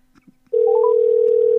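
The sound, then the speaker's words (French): A telephone call to a newspaper's editor-in-chief is placed: after half a second of near silence, a loud steady tone sounds continuously, with a few brief higher beeps over its start. “Alors, j'appelle la rédactrice en chef du journal.”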